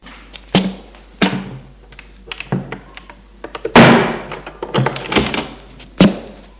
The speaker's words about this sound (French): le fait entrer et ferme la porte.